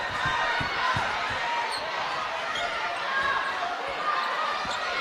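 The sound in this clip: A basketball is dribbled on the court during a women's college basketball game, quick repeated low thumps under loud continuous crowd noise, with a commentator's voice.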